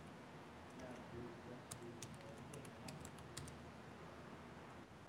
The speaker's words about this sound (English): Oops, you actually have to be able to type. Here we go. And I'll just type in some text.